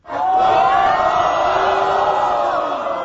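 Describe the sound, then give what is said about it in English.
A crowd at the TNT pool hall in Xi'an cheers and shouts a welcome for the new world champion. The loud roar swells quickly at the start and holds steady throughout. “Well, hopefully the sound tells a bit of a story. I mean, he got an absolute rock star welcome when he walked into the TNT pool hall here in Xi'an.”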